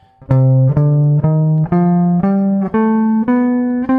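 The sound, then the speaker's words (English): A melodic minor scale played on guitar, eight evenly spaced plucked notes climbing step by step. Each note rings loud and clear on its own, with no voices. “Okay, the melodic minor scale sounds like this.”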